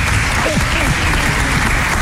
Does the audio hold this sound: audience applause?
yes